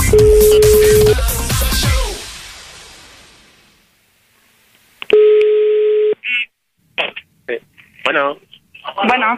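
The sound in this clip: A telephone call placed for a prank: a single long electronic ring tone sounds, then a voice answers in short bursts of speech.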